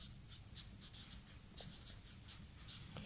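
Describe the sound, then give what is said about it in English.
A pen scratches faintly as something is written down by hand, with many short, quick strokes in an uneven rhythm over a soft low hum. “I have to write it down.”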